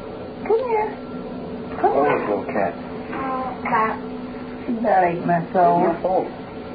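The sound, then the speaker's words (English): Cat meowing in a few drawn-out, wavering calls, several bunched together near the end, each with a bending, tonal quality. “Come here, Tippy. Tippy. Come here. Come here. Oh, little cat.”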